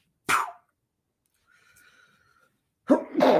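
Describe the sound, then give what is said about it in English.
A person sneezes once, a sharp, loud burst of breath, then a long near-silent pause with faint background sound. “That's like my third or fourth sneeze in the last 12 hours.”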